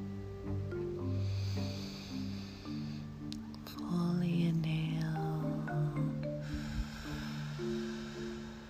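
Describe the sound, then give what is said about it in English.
A slow, deep breath in and out, a soft airy hiss rising and falling over sustained low musical tones that hum throughout. “This is your moment. Take a deep breath.”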